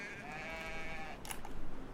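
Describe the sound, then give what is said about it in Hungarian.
A goat bleats in one long, wavering, nasal cry, followed by a short burst of rustling noise. “ez egy kecske, teljesen mindegy. Megpuffantom a kecskét, és lesz húsink.”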